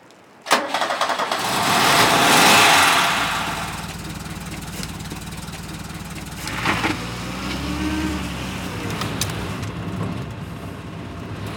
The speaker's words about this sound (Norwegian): Det er en Ford Taunus kupé 1975-modell. Oransje farge. Og når jeg kjører på Vangen med den, så vet alle hvem som kommer.